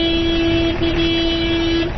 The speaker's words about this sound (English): Car horns soon blare as thousands jostle for space on the narrow road to begin their rugged journey back home.